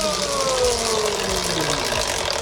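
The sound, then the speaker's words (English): A prize wheel spins on a big spin with dense ratcheting clicks over a steady whirring hum. The tone slowly drops in pitch as it keeps turning, loud and continuous throughout. “let's spin the wheel. Do you want a big spin or a little spin? Big spin.”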